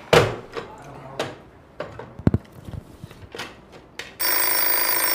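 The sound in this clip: A telephone rings with an incoming call. A loud, sustained, bell-like ring starts near the end, after a few scattered knocks and clicks.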